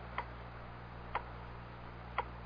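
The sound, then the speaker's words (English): A grandfather clock gives three faint, evenly spaced ticks about a second apart over a steady low hum. “Oh, that clock, Turley. It's going to drive me up the wall. Oh, come on now. It's only a clock.”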